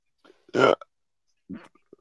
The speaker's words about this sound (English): I'm sorry for burping